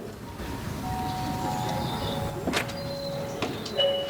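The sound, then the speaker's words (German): A doorbell rings and a front door opens: sustained chime tones ring out over a hissy background, joined by a few sharp clicks and knocks of the door hardware. “Deswegen klingele ich jetzt mal.”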